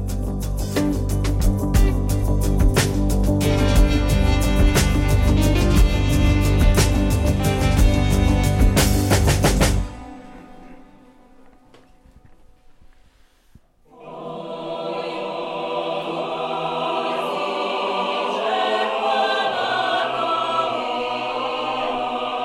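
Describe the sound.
A choir sings a Ukrainian folk song. A loud, dense musical passage stops abruptly, a brief near-silence follows, then sustained massed choral voices rise and carry on steadily.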